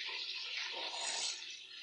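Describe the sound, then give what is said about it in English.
Running water while nappies are rinsed: a steady, hissing rush of flowing water that lasts throughout and eases slightly near the end. “Rinsing nappies.”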